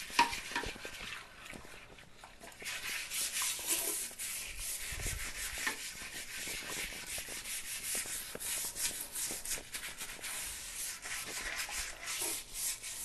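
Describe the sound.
A brush scrubs the inside of a toilet bowl in a bathroom. The rasping strokes continue almost without a break from start to end, with no talk.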